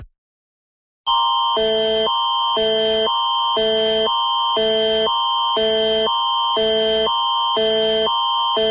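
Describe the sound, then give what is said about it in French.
Public emergency alert system test tone from Prince Edward Island's Emergency Measures Organization: after about a second of silence, a loud electronic signal alternates rapidly and steadily between two pitches in many repeating pulses. “Ceci n'est qu'un test. Il s'agit d'un test du système d'alerte au public de l'Organisation des mesures d'urgence de l'île du Prince-Édouard.”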